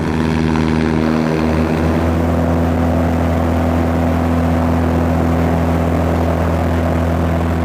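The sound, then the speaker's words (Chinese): A light propeller aircraft's engine drones steadily on the ground as it readies for takeoff. The sound is a loud, continuous hum with strong low tones, and the level stays even throughout with no clear climb. “等到它起飞， 准备起飞啊！”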